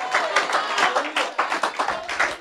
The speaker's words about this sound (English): Keep clapping. If you're clapping, I might be talking about you.